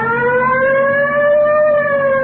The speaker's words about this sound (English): You want to hit the siren?